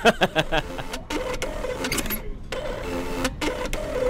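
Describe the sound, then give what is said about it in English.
A lottery ticket machine printing tickets: a quick burst of sharp clicking pulses, then a continuous whirring mechanical feed broken by a couple of brief gaps, fairly loud and without voices. “Meanwhile, the lottery ticket machine was busy at work, pumping out the tickets with a steady stream of would-be multimillionaires.”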